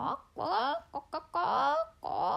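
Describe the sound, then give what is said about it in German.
A voice imitating a hen clucking as it settles into the grass: a few drawn-out cackling calls broken by short clucks, fairly faint. “Das Pünktli ist ins Gras hineingesessen und hat angefangen zu gackern.”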